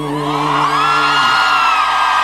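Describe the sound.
A crowd cheers and whoops for a guest, loud sustained voices ringing together over a wash of noise, with no single clap standing out.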